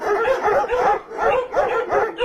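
Dog barking: a quick run of repeated, evenly spaced barks, fairly loud and on their own with no talk.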